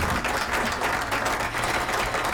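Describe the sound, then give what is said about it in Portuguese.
An audience claps for the first altar entry from Pesqueira during a contest. The applause is a steady, moderately quiet patter of many hands without breaks. “Dá uma salva de palma aí para ele.”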